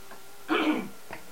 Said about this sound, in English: I had to cough.